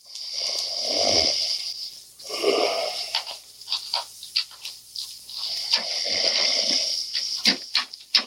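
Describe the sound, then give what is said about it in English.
A man fakes snoring while pretending to be asleep, making a few long, rasping snores with short snorts and clicks between them. “I gotta keep this up. Make it sound like I'm really sleeping.”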